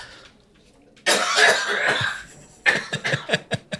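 Someone coughs after inhaling whiskey at a whiskey tasting: a long, harsh, rasping coughing fit, then a run of shorter, sharper coughs.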